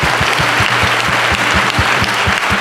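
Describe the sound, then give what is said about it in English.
Round of applause from an audience at a question-and-answer event in Colorado, a loud, dense, continuous patter of many hands clapping that holds steady throughout. “Yes, give him a hand. Yeah, a round of applause.”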